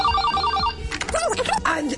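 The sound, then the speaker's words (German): Electronic telephone ringing for an incoming call to a woman in Australia, a quick warbling tone pattern lasting under a second, after which a voice speaks. “Eine Frau aus Australien bekommt den Anruf ihres Lebens und reagiert so.”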